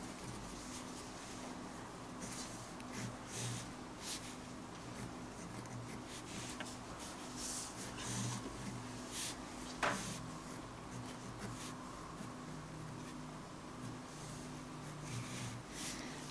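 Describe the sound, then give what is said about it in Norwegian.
Pen or pencil scratching on paper as an electric circuit diagram is drawn by hand: many faint, short strokes and taps in an irregular rhythm, with no talk. “Da tegner jeg kretsen først, når tiden lik 0.”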